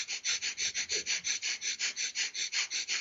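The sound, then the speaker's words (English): Rapid nasal breathing in Kapalabhati yoga breath practice, a steady pumping rhythm of many quick, forceful breaths through the nose, evenly paced and sounding alone. “just really fast in and out to the nose, pumping my breath”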